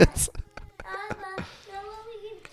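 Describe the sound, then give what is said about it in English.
A child's voice talks in the background in short bursts of speech, with scattered sharp hand noises and adult speech mixed in. “All right, who's this kid talking in the background?”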